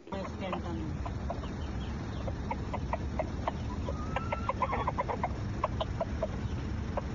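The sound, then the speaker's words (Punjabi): Roosters clucking at an animal hotel in Australia, many short, clipped clucks and squawks in quick succession, layered over a constant rumbling background noise. “ਆਓ ਦੇਖੀਏ ਪ੍ਰਧਾਨ ਦੀ ਸੇਵਾ ਕਿੰਨੀ ਹੋ ਰਹੀ ਹੈ, ਆਸਟ੍ਰੇਲੀਆ 'ਚ ਕੁੱਕੜਾਂ ਦੀ ਸੇਵਾ ਕਿੰਨੀ ਹੋ ਰਹੀ ਹੈ।”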